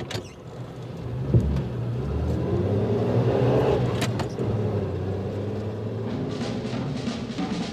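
A car engine hums as the vehicle drives off toward a railway station, a steady, moderately loud mechanical drone with a faint creak early on, lasting the whole stretch without voices.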